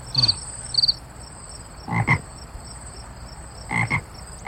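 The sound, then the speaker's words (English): Bullfrog croaking at night, a few deep, throaty croaks spaced apart over a constant high, thin insect chirring. “that's just a bullfrog.”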